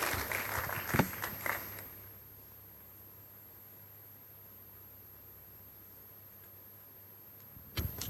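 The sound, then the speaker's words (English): Church audience applauding in praise, a short burst of clapping that dies away within about two seconds into near silence, with a brief sharp noise at the very end. “Give Jesus a big hand of praise and please be seated.”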